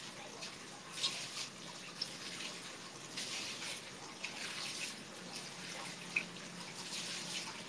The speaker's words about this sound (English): Okay, I'm trying to kick away the cold water. It's getting warmer, yes.